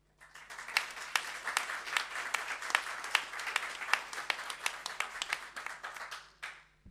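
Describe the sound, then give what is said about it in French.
An audience applauds at a conference, with dense, sustained clapping that starts quickly, holds steady for about six seconds, then tapers off. “Voilà, donc Frédéric Hamann, on peut aussi l'applaudir.”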